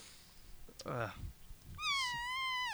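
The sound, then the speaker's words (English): A person imitates a cat meow with their mouth: a single drawn-out, high, wavering wail that rises and then drops away at the end, loud and alone, after a few brief vocal sounds. “I thought that was a cat getting through. No, that was my mouth, dude.”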